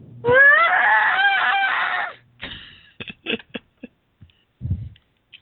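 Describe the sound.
A voice acts out a loud, strained scream of excruciating pain during a tabletop role-playing game, lasting about two seconds, then a few short gasping breaths.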